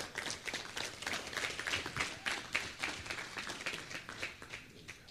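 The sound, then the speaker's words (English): An evening audience applauds as a nutritionist is welcomed up to speak. The clapping is a faint, steady patter of many hands that goes on for about five seconds with no pause. “If you'd like to give her a hand just to welcome her aboard.”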